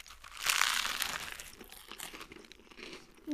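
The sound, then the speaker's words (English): Crunching as an apple and crisp sandwich is cut in half and eaten: a loud burst of crackly, crinkling crunches early on, then softer irregular crunches trailing off. “Then you cut the sandwich in half and eat it.”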